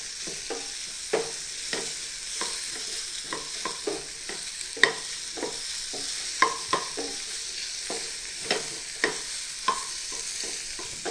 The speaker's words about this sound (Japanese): さあそしたら玉ねぎを加えましょう。そしてまた中火で炒めていきます。